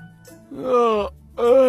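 A man who has just woken yawns aloud: a drawn-out, groaning voiced exhale, a short pause, then a second moaning stretch.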